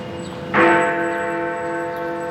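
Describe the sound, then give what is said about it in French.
A single deep strike of the city's largest bell in a clock tower, followed by a long, sustained ringing hum that fades only slightly. “C'est la plus grosse cloche de la ville qui sonne.”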